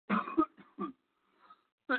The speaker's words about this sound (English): Excuse me. I had this fucking cough for like 3 weeks, and it's been consistent.